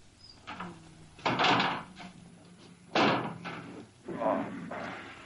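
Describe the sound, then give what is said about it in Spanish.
Saloon doors being closed in a Western film scene: three broad, rattling wooden thumps at irregular intervals, each followed by a short scraping decay. “Roy cierra las puertas del local ante la mirada de María Elena.”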